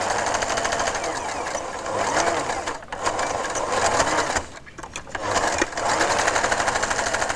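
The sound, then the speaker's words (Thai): A sewing machine stitching a seam, with a rapid, steady mechanical chatter that runs continuously, broken only by a few brief pauses. “แล้วเราก็เย็บเลยออกมาเลยนะคะจากนั้นนะคะเราก็ตัดนะคะตัดด้านในให้ชิดนิดนึงนะคะตัดตะเข็บเราตัดตะเข็บนะคะนิดนึง”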